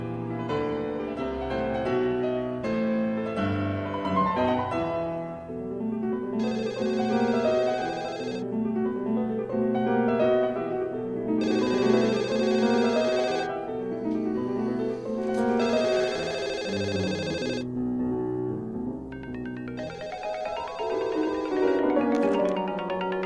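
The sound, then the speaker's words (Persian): A telephone rings on an outgoing call while waiting for someone to answer. A continuous melodic ringing pattern repeats for over twenty seconds, with bright bursts recurring at regular intervals and no voices. “حالت میخوای یه بار دیگه بهش زنگ بزنم؟ شاید اون موقع تو اتاقش نبوده. بگیرم بهش.”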